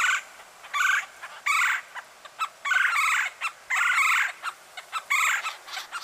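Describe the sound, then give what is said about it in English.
A red-bellied woodpecker gives many short, harsh, nasal chuck calls in an uneven series, some close together in quick pairs. The calls are loud against a quiet background. “And to signal a mate to come back to the nesting cavity, they'll also give some chuck calls.”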